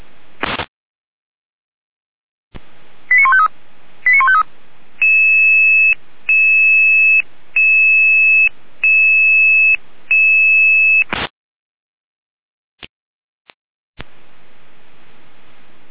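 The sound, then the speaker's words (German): Electronic alerting tones from an emergency dispatch centre in Jena calling out crews: two short bursts of beeps, then a steady run of about six repeated two-pitch tone pulses, ending in a sharp click and a few faint ticks. “Leitstelle Jena, Alarmierung.”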